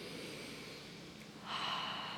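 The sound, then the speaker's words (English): A deep breath is taken: a soft, airy rush of air swells up in the last second, over a quiet, steady background hiss. “Let's take a breath.”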